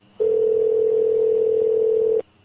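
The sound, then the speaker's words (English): A steady telephone tone sounds alone as a call is placed to an answering machine, one unbroken mid-pitched hum lasting about two seconds that starts and stops abruptly. “Okay, I'm going to dial it for you.”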